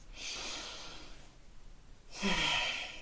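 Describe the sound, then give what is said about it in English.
A deep, conscious breath: a slow, airy inhale lasting about a second, a short pause, then a fuller, louder exhale, heard alone without talk. “Let's begin with a deep conscious breath.”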